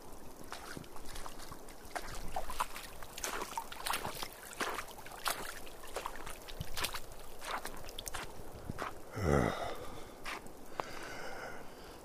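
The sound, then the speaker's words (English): Footsteps squelch through thick puddles, many soft, wet steps falling in a steady walking rhythm. “Oh, now thick puddles. Oh, that feels very poorly on the feet. Is it all like this now?”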